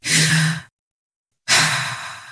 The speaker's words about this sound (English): Take a deep breath.